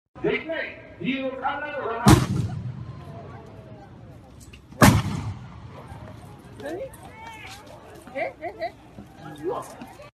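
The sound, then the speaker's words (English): Two sharp, loud bangs from gunfire in news footage of a shooting, spaced a few seconds apart, with voices and crowd commotion continuing beneath and between them. “Now, we have a short video of this. Let's play cut 50. It shows the actual shooting.”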